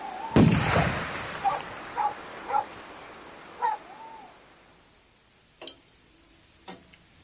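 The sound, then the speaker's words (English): A shotgun is fired from a window at thieves: one sharp, loud bang near the start, followed by a few quieter scattered clicks and short tonal sounds at low volume. “And Derek leaning out of the window with his shotgun. I'm warning you! Shoot, Father! Shoot the thieves!”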